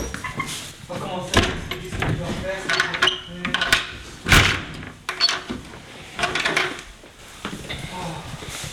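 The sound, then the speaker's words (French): A door is shut and locked with a big bolt, giving a slam and several sharp metallic clacks and rattles of the bolt mechanism, spaced irregularly across several seconds. “Ferme avec un grand verrou.”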